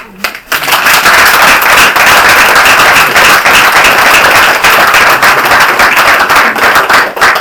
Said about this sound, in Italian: È un applauso che va a questo Remazzoni, naturalmente.